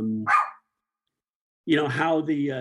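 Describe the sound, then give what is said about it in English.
An excited dog gives one short, sharp bark between stretches of human talk. “You know, the dog's excited. I'm not paying the dog for any podcast appearances.”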